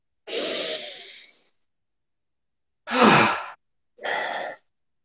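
Deep breaths in and out during a breathing exercise: one long, soft breath, then after a pause two shorter, stronger bursts of air, with no talking.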